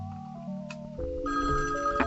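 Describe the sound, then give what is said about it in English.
An incoming call rings a telephone on a call-in radio show, heard as steady electronic ringing tones that shift to a different, fuller pattern about halfway through, continuous and moderately loud with no talk. “And somebody's calling in. Alright, somebody's calling in. Here we go. We're going to pick up the phone.”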